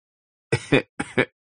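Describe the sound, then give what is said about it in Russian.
A small, sick dark-brown bear coughing with its mouth open in a zoo cage: after a short silence come two pairs of harsh, short coughs, and another cough begins at the very end. “Кашляет он, раскрывая пасть.”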